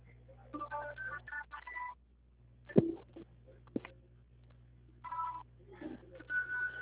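An electronic telephone ringtone sounds in short bursts of beeping tones, with a pause between them broken by a couple of sharp knocks. The ringing stays fairly faint throughout.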